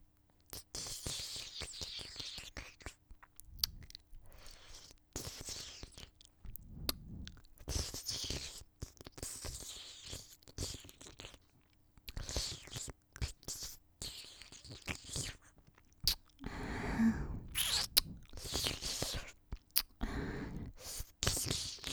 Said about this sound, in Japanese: ほーら、おいしそうなお耳いただきます。